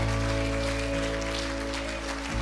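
A church audience at Riverhouse applauding the choir after a service, a dense, even wash of clapping that holds steady throughout over low sustained tones.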